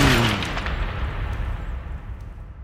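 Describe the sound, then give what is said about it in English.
A bomb explosion sound effect: a single deep, loud blast that opens at full force and decays into a rolling, rumbling roar over about two and a half seconds. “It's going down and detonate it. Bombs away.”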